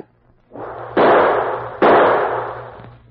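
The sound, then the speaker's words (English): Two gunshots are fired a short moment apart. Each is a sharp, loud bang followed by a decaying roar, heard alone without voices. “Maybe if I fire some shots, someone will hear.”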